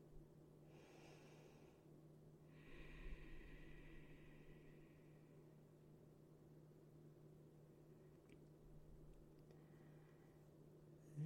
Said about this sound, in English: I take a few breaths.